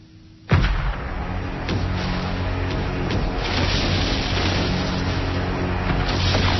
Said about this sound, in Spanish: Un bombardeo desde la flota más grande que ha reunido la Armada. 100 proyectiles por minuto, hasta que se rindan.